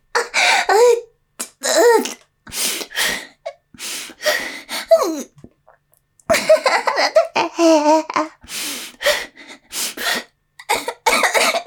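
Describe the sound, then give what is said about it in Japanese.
Someone coughs repeatedly while trying to hold it back. Many short, harsh bursts are separated by brief pauses and mixed with throaty gasps and laugh-like breaths, with no talking. “我慢しようとしたら咳込んじゃう。”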